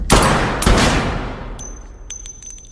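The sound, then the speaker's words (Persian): Two loud gunshots from a Colt pistol crack out in quick succession, each followed by a long, fading tail, then a thin, high metallic ring lingers. “خب با کلت بزن ببینم چی بلدی. اینو داشته باش.”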